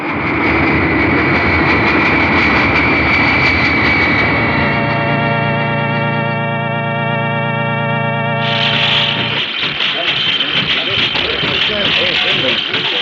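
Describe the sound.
Cargo plane engines at an airport drone loudly and continuously in a dense, steady roar with a humming tone. Near the end the sound shifts to a brighter, harsher roar.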